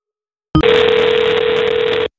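A loud, steady telephone tone from a booby-trapped phone. It opens with a sharp click and holds one even pitch for about one and a half seconds before cutting off.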